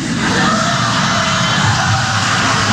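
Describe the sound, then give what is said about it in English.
An audience yelling and cheering: a loud, continuous roar of crowd voices with shouts and whoops blended together, steady from start to finish. “You hear the audience go crazy.”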